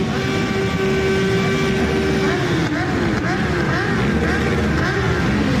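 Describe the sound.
Motorcycles ride through a town in a memorial procession, giving a continuous loud engine roar with rising and falling revs throughout.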